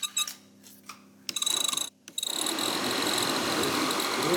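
Engine of an old Golf car running after being oiled: a few rough bursts and knocks, then a brief cut before it settles into a steady, continuous mechanical run that holds to the end.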